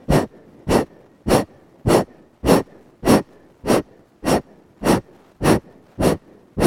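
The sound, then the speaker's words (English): Forceful, sharp exhales in a breathing exercise, each a short puff like blowing out a candle. A long, steady series of loud bursts comes at an even pace, a little under two per second, with quiet pauses between and no talking. “We're going to only exhale. Imagine you're blowing out a bunch of candles one at a time.”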